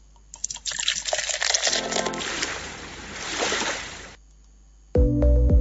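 A bottle is opened and liquid pours out in a rushing, splashing gush lasting about four seconds. A short pause follows, then music begins.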